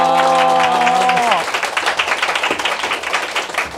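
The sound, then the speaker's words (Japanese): Applause from a clapping technique that loosens the hands to soften the claps gradually. Quick, uneven claps follow a brief held voice and stay fairly steady in loudness to the end. “こうやることで拍手を少しずつね拍手の手を解いていく”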